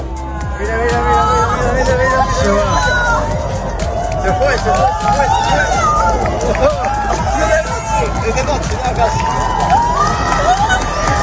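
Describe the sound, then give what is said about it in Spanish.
Crowd reactions to a total solar eclipse: dense, loud babble of many voices with shouts and cheers, holding steady the whole time. “Esto que escuchas son las reacciones que dejó ayer el eclipse total de sol, que ya ha quedado para la historia.”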